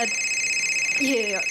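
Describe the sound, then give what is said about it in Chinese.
A telephone rings during a comic stage performance: a steady, bright electronic ring tone sustained throughout, with a brief voice sounding over it near the end. “不好意思啊，我接个电话啊”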